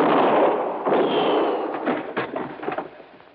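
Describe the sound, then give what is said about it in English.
Gunshots from a gun ring out as several sharp cracks that follow a stretch of broad, hissing noise. “Now, well, I can see the flash of your gun.”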